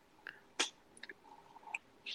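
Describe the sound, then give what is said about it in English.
Chewing of beer cheese with potatoes and chorizo: faint, scattered crunchy bites and soft wet mouth sounds, a few irregular bursts over quiet. “I hope you guys out there like eating and chewing on the podcast. I know the ASMR right here of the chewing.”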